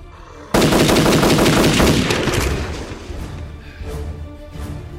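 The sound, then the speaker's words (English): Gunfire bursts in abruptly as a loud, rapid automatic volley that runs for nearly two seconds. It then tapers into a weaker, rattling tail, with a couple of further scattered bursts after it. “The gunshots! You called others here!”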